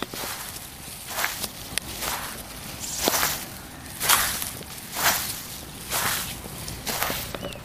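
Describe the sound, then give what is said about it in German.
Footsteps crunching through hoarfrost on frozen grass and moss in a garden: a steady series of crisp crunches, roughly one per second, over a faint low hum. “Das Knirschen meiner Schritte hier im Raureif, im gefrorenen Gras und Moos von unserem Garten. Hört ihr das?”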